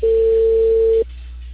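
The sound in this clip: A steady telephone line tone after a call has hung up: one flat, mid-pitched hum holds for about a second, then cuts off abruptly.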